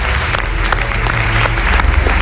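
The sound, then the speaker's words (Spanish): Sustained applause from an audience honouring a celebrated figure at a Spanish event, a dense, even roar of many clapping hands that holds steady and fairly loud throughout, with no talk over it. “Os pido un aplauso para esta leyenda, Javier Pérez Andrés.”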